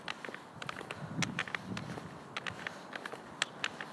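Soft footsteps tap along on an evening walk outdoors. The irregular steps are faint, with a low rumble beneath them.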